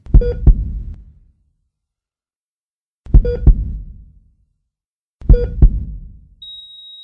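A heartbeat sound effect plays three deep double thumps, each followed by a pause. A steady high electronic beep begins near the end.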